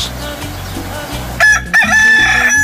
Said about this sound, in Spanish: Y para que se motive más, así le canta mi gallito de gallito.